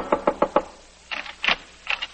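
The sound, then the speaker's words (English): Frantic knocking on an apartment door: four quick, sharp raps in a row, then after a short pause a few more scattered, uneven knocks. “We find Anne frantically knocking on Jeff's door.”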